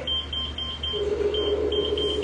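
An EMF detector beeps in a quick, repeating series of short, high-pitched tones with no voices. A lower steady tone joins partway through.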